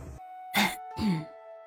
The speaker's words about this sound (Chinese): 三清真人轻咳了一声